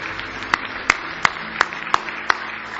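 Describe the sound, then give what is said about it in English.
Hand claps of praise at a church service, six sharp, evenly spaced claps in a steady rhythm over a faint background. “Give the Lord a hand clap of praise tonight.”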